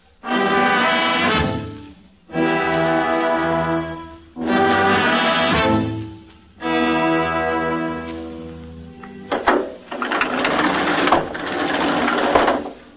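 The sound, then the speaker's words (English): Hand-cranked elevator in a garage, hauled up to the fifth floor by an emergency crew of ten men: a series of long, droning mechanical grinding bursts separated by brief pauses, the later ones rougher and noisier. “This being an emergency, the manager of the garage called the elevator company, and they sent an emergency crew of 10 men, who then hand-cranked the elevator to lift it up to the fifth floor.”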